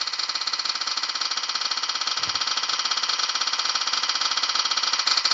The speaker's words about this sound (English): All right, let's spin the spinner. Here we go.